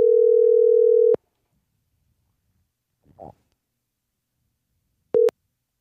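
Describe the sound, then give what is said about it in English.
Telephone tones of a call going straight to voicemail: a steady mid-pitched tone lasting about a second, a long silence broken by a faint brief noise, then one short beep at the same pitch. “Going straight to voicemail.”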